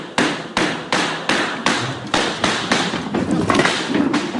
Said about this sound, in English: Audio moment, gunman's open fire, we just played it.